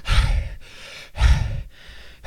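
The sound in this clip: A voice imitates the panting of an out-of-breath video game character, with a few heavy, breathy pants in a steady rhythm, heard alone.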